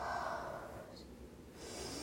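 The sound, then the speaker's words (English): Slow breathing during a nightly relaxation routine, drawn in through the nose and let out through the mouth: soft, airy hiss with a faint rise in the middle, quiet and alone without talk. “Breathe in through your nose, out through your mouth.”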